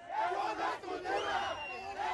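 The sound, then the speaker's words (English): Crowd of punks, goths and skinheads shouting at an anti-emo protest, held back by riot police. Many voices yell together in a few rising and falling waves. “This isn't a culture, they shout, expressing their chief complaint with the mostly adolescent emos.”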